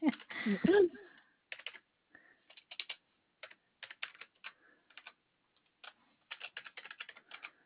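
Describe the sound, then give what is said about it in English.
Typing on a computer keyboard during a phone call about a credit check: many quick clicking keystrokes in irregular bursts separated by short pauses, fairly faint. “If I could type, that would be great, wouldn't it?”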